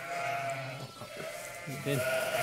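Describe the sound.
Sheep bleating: a ewe and her lamb call out in a few wavering, nasal bleats with clear harmonic tone, the last one louder and held longer.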